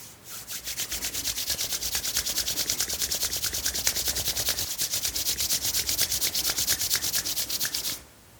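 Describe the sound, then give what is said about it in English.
Hands rubbing briskly together, a fast, even series of dry swishing strokes that keep a steady rhythm for about eight seconds before stopping abruptly. “I invite you to place your leaves on the ground and bring your hands up to your face. You might like to rub your hands together to bring warmth and energy.”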